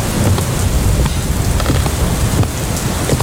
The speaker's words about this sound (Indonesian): Sepertinya kita harus bersiap, Bu. Kenapa, Pak? Hujan semakin deras.